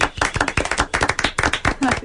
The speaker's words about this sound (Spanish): Se merece un aplauso